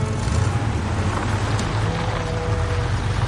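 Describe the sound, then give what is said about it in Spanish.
A Cadillac moves toward a woman sitting on a bench, heard as a low, steady engine rumble with a broad, wind-like wash on top. The sound holds at an even level throughout, with no talking. “El Cadillac se acerca a ella.”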